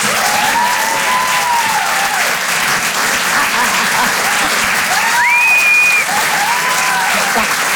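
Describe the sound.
Continuous applause from a comedy club audience welcoming a comedian, an even, broad wash of clapping that holds steady throughout.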